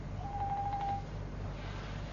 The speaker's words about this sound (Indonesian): Ada telepon? Iya, angkat.